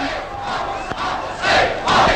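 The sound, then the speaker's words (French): A theatre audience shouts in protest. The loud crowd yells and jeers in a rough, continuous din that surges twice in the second half. “Quel désastre! Écoutez-les, mon public! Mon cher public!”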